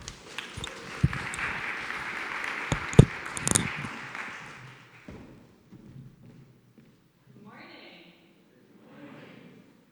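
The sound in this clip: An audience applauds to welcome a pastor coming up to speak, a dense burst of clapping lasting several seconds before fading away. A voice then speaks briefly in the quiet that follows.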